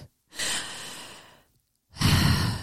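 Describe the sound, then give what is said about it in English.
A deep breath: a long, airy inhalation, a brief silent hold, then a louder, fuller breath out. It is close and clear with no talking. “let's take another deep breath, because this one was heavy.”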